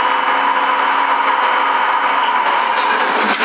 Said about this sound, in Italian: Guarda, io la ventola mia, questo è quelli senza strumenti, guarda, l'accendo quando voglio, vedi?